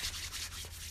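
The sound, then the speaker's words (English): Dry hands rub together in a faint, brief swishing friction sound, a few soft strokes running through one second. “It's the sound of dry hands.”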